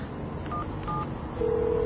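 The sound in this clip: A cell phone number is dialed: two short keypad beeps, then a longer steady tone over low background noise, with no voices.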